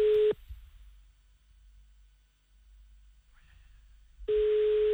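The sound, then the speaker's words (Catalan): Telephone ringback tone while calling someone: a steady, buzzing tone at the start cuts off into a long near-silent pause, then the same tone returns near the end. “L'estem trucant.”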